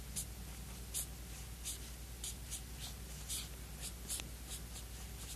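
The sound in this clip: A monk writing Chinese characters: many faint, short, scratchy strokes at an uneven pace over a low steady hum.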